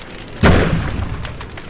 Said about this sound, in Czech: To byl výbuch uvnitř budovy.